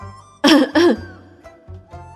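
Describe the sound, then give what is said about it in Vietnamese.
Two sharp, loud coughs burst out in quick succession from someone choking on food during a meal. Quieter throat noises follow over a low background hum. “Bạch Ngọc Đường không đề phòng, sặc thức ăn, ho khụ khụ nhìn Tiểu Tứ Tử”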